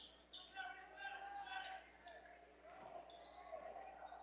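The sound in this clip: A basketball being dribbled on the court during the third quarter of a Shelton vs. Blue Hill game, with repeated bounces under a commentator's voice.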